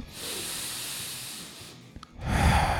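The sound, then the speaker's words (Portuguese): A person breathes deeply: a long airy breath, a short pause, then a heavier, louder breath at the end. “assim, respirar assim”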